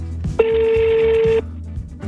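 A telephone call rings out as one long, steady tone at a single pitch lasting about a second, over a low, pulsing background.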